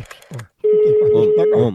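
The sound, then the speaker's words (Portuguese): A steady telephone line tone sounds for about one second while a call is being placed, with a man talking over it the whole time. “vou ligar agora pra Jussara”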